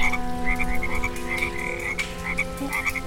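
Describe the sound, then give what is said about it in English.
A large chorus of frogs croaks together in a steady, dense mass, with quick pulsed calls repeating over a continuous droning hum. The calling is fairly loud and even throughout, with no talk. “100 frogs are singing together in harmony.”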